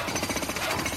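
Jackhammer noise from construction work while a playground is being built, a loud, dense, rapid rattling pounding that continues without a break throughout.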